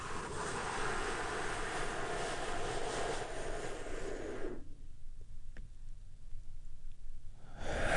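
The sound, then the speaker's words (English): A deep breath taken as part of a relaxation exercise, heard as a loud, breathy whoosh lasting about four and a half seconds before it cuts off to near quiet. “I want you to take a deep healing breath with me. Right now, here we go.”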